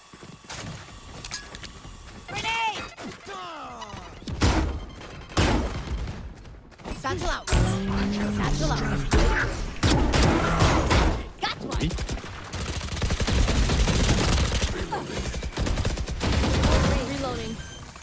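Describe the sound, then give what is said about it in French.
Rifle gunfire in a video game: many sharp shots crack out in irregular bursts and volleys, moderately loud and mixed with other busy in-game noise. “Je vais leur tirer dessus.”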